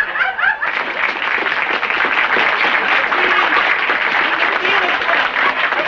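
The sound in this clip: Audience applause after a performance in a club, as the performers come onto the stage: a thick, steady wash of many hands clapping, with bits of laughter and voices mixed in.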